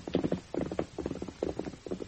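Horse hooves clip-clop as a rider sets off, in a lively, even rhythm of repeating clusters of sharp hoof strikes that continues throughout.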